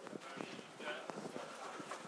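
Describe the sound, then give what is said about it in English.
General workplace ambience inside an office building, with faint footsteps and murmured conversation as people talk quietly throughout. “So, apart from that, and just some general work ambience you can have here now.”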